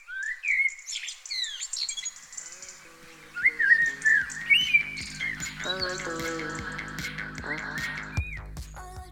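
Bird song rises in bright, varied whistled chirps and quick sliding notes that come in separate bursts, then settles into a denser, steadier stretch of calls toward the end.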